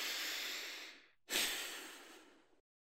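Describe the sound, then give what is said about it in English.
A deep breath drawn in and let out, two long airy rushes of breath of similar length separated by a short gap, loud and clear with no other sound. “Let's take a big deep breath.”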